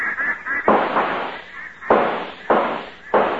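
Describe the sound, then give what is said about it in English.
Gunshots fired at a flight of ducks over a lake: four heavy, booming reports with decaying tails come at uneven intervals, after a cluster of smaller pops at the start. “Now, don't shoot too fast, fellas. Look at them come.”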